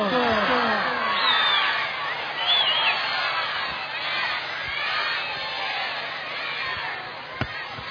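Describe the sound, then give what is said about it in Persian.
An audience loudly recites salawat for Imam Zaman in unison. Many voices chant together with rising and falling contours, sustained and strong before easing slightly, and a single sharp click sounds near the end. “برای سلامتی وجود نازنین آقا امام زمان بلند صلوات خواهد کن.”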